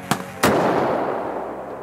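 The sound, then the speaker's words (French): Cannons fire during the Battle of the Somme in the First World War: two heavy blasts, the first sharp and short, the second louder and trailing into a long, fading rumble. “Là, c'est après la bataille. On emmène les blessés. On continue de tirer. Yeah, the cannons are still firing, that's right.”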